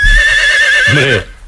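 A horse whinnies once in an animal-sound guessing game: a loud, high, quavering call of just over a second with a lower, throaty burst near the end before it cuts off.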